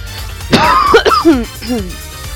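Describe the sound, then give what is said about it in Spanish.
A person with a lingering cough coughs and clears their throat in a few rough, voiced bursts that are fairly loud and sound strained, with throaty tones falling in pitch. “La tos no me deja.”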